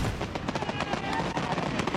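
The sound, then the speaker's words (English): Fourth of July fireworks go off in dense, rapid crackling and popping bursts that run continuously and loudly from start to end. “The cost of 15 minutes of fireworks?”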